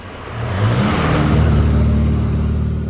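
A car engine roars past at a busy road crossing, swelling into a loud, rumbling whoosh that holds steady, then eases slightly near the end, with no voices.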